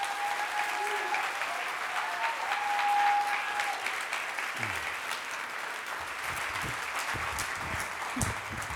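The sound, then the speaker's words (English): Applause from an audience welcoming a speaker onto the stage: a dense, steady clatter of many hands clapping that holds at an even loudness for the whole stretch. “So, would you please give a warm, first time ever, chesed welcome to my wife, Erin Clinton.”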